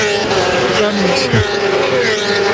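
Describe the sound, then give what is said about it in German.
Motorcycles roar past at close range, a loud, continuous engine drone with a sudden downward pitch sweep as one rushes by, then the steady roar carries on. “in dem Moment, wo es vorbeirauscht, spürt man förmlich die Gewalt der Motorräder.”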